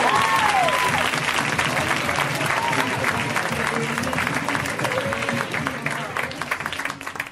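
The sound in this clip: Audience applause for comedian Steve Agee at a stand-up comedy show: dense, steady clapping with a few whoops, loud throughout and easing slightly at the end.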